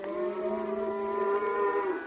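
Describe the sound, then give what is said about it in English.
Cows are mooing as they are driven home. One long, low, sustained moo with a steady harmonic tone lasts about two seconds on its own, with no voices. “It's only the cows. They're driving them home now.”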